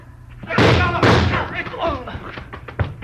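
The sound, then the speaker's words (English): A fist punching a man in a fight: two heavy, sharp thuds about half a second apart, followed by scuffling and a voice. “You hit him, Marlowe. You got him. I think he's dead.”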